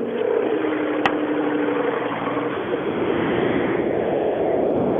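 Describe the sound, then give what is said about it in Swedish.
A Porsche car's engine at full throttle gives a steady, loud, unbroken roar that holds at one level for the whole clip, with no talk over it. “Ja, fullgas i en Porsche är inte sådär jätteroligt.”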